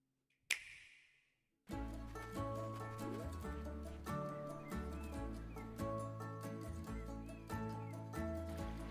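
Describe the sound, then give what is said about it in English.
Trailer audio for the video game A Short Hike: a sharp opening hit that fades out, a brief silence, then bright, steady music with plucked melodic notes, crisp percussion and a low bass line. “Well, we picked the same game. It's called A Short Hike. A Short Hike. Let's watch the trailer.”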